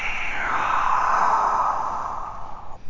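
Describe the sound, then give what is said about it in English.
A big breath in during a yoga class: a single long, smooth, airy rush of air that holds steady for about two and a half seconds, then cuts off. “One more big breath in.”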